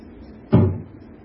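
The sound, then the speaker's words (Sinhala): A single dull tap struck on an object, a short low knock that rises sharply and dies away within a fraction of a second against quiet background. “දැන් මම මේකට තට්ටු කරනවා.”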